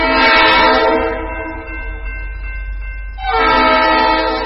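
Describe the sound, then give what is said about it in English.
Train horn sounding as a train approaches a street-grade crossing without gates: a loud, sustained chord-like blast that eases, then swells again, over the deep rumble of the passing train. “Federal rules require engineers to sound their horns four times for a total of 15 to 20 seconds as they approach street-grade crossings without gates.”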